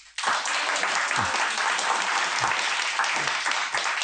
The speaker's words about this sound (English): Well, as you can hear, there's an audience here in the shop